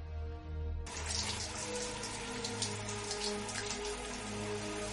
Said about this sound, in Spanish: está pensativa bajo la ducha. Cierra los ojos sintiendo el agua en su rostro.